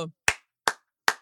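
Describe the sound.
Three sharp, loud hand claps, evenly spaced, following the tail of a voice.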